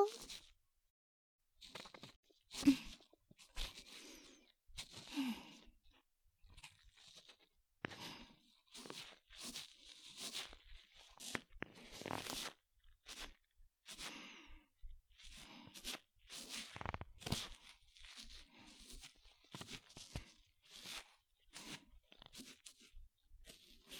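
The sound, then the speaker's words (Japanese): Quiet, crunchy scraping and crackling of ASMR ear cleaning, a long stream of many soft, irregular clicks and rustles. “気持ちよすぎて、よがり狂うくらいに、お耳をきれいにして差し上げますよ。”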